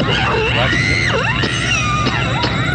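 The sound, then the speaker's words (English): A woman's loud, piercing scream from the first stabbing death in a horror movie, sustained and wavering in pitch with sharp swoops, carrying an echo throughout. “Let's start with this first death. It's the first scream and stab of the”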